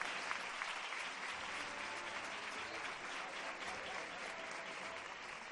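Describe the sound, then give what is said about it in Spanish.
Applause from a crowd watching a religious procession of a Virgen del Carmen float as rain picks up: steady, faint, sustained clapping that holds evenly throughout with no break. “Empieza a apretar la lluvia, de nuevo los aplausos.”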